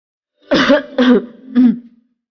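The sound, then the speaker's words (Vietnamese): Someone who has just choked on tea gives three dry, harsh coughs in quick succession. The coughs are fairly loud and short, with the last one trailing off. “Triển Chiêu bị sặc nước trà, ho khan vài tiếng”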